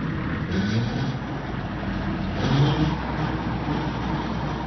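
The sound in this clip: A tractor engine, used for digging up rocks and plowing, runs with a steady, rumbling drone that swells slightly midway, with no voices heard.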